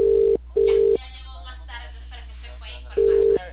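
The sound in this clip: Telephone call-progress tones on an outgoing call, placed by a cable company rep to a customer. Three short, steady, loud tone bursts: two at the start close together, then talk in the gap before the third near the end.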